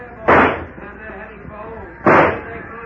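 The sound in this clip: Two sharp gunshot bursts ring out in an old-time radio detective drama, about two seconds apart, each loud and abrupt over a low, steady background.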